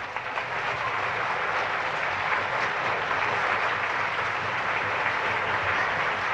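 Sustained audience applause for an orchestra at a live show, a steady, dense wash of clapping that stays loud and even throughout without a break.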